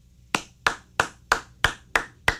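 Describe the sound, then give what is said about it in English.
One person claps their hands during a fundraising appeal: seven sharp, evenly spaced claps at a steady rhythm of roughly three per second, with no voices. “I'm not sure why I'm applauding”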